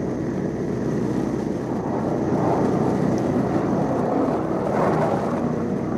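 Aircraft engines drone through a bombing run, a loud, steady low rumble with a broad roar that holds without a break and no voices.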